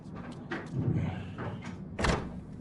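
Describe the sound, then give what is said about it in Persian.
Knocking on a door, a few dull, muffled thuds over a low, noisy background. “بیا بیا در زدم بیا”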